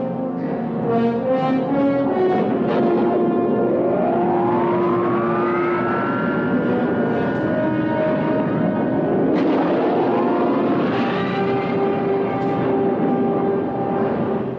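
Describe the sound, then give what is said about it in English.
Spaceship thrusters fire in a science-fiction scene as a loud, sustained roaring drone layered with electronic tones. Two upward swooping pitch sweeps rise out of the steady rumble. “Fire thrusters.”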